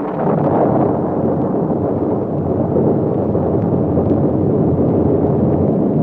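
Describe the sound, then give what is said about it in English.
An explosion blast shakes the ground as a loud, sustained, low roaring rumble that stays at a constant level throughout, with no voices. “A terrific blast shook the ground just ahead of Silver and the Lone Ranger.”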